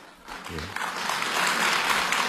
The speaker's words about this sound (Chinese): 你看，大伙还真鼓掌，真捧场。